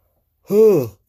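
A single short yawn, voiced and moderately loud, swells and fades on its own, with a pitch that arcs up and then down.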